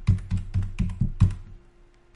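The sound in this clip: Fingers type on a computer keyboard in a quick run of six crisp keystrokes, then a pause and one more tap, with no voices.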